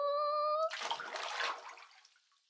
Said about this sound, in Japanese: このお湯を張った洗面器に洗剤を入れて、じゃあ入るよ。